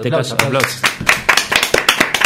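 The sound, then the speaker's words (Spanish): Clapping in a radio studio breaks out after a moment of talk: many sharp, uneven claps that keep going to the end. “Aplausos.”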